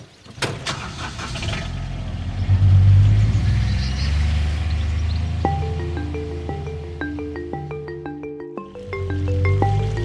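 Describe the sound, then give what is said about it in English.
Diesel engine of a four-wheel-drive utility buggy, a souped-up golf-buggy type with a flatbed and four seats, running with a loud low rumble that swells as it gets going and then holds steady. “I guess it is a souped-up golf buggy. It's diesel, it's four-wheel drive, it's got a flatbed in the back, seats four people.”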